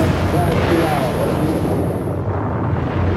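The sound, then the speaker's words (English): A Vanguard rocket roars at launch as a dense, steady rumbling blast, with a voice speaking briefly over the noise. “As the countdown winds down, you turn up the volume. This is the moment the world has been waiting for. The rocket lifts a few feet in the air,”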